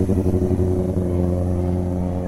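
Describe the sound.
Motorcycles going by with a steady, low, rough engine drone full of layered harmonics. The drone holds an even level throughout, with no talk.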